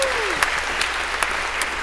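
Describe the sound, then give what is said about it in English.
Audience applause for volunteers at a talk, a steady, even round of clapping from a crowd, with a few sharper claps popping out at regular intervals above the rest. “So maybe a round of applause for our volunteers here.”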